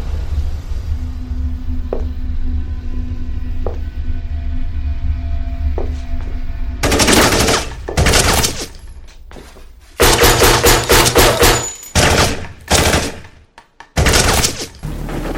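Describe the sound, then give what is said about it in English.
Gunfire erupts inside a house, with many loud, sharp bursts clustered in rapid volleys after a stretch of low hum and a few faint ticks. “It appears that gunshots have just been fired from inside Mr. Washington's home.”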